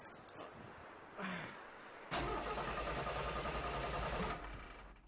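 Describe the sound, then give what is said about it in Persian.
Car engine cranking but failing to start: short faint starter bursts, then a longer grinding crank of about two seconds that cuts off without catching. “تو رو بلیاز خدا روشن شو. روشن شو. چالان نمیشه. لالا چالان نمیشه.”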